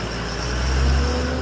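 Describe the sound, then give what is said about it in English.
A diesel school bus engine runs with a steady low hum and a droning tone, swelling slightly midway through the brief stretch. “school buses across the country are dispatched to bring kids to and from the schoolyard. About 9 out of 10 run on diesel fuel, like this one.”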